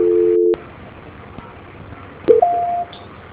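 Telephone line tones during a call transfer: a steady tone cuts off with a click into quiet line hiss, then another click and a short tone give way to a higher steady beep that stops abruptly.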